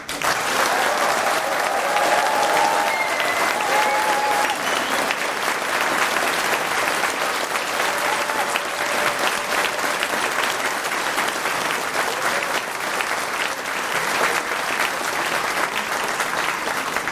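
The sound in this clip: Applause from an audience at a competition's final round, loud, dense and continuous clapping that holds steady for the whole stretch without any break.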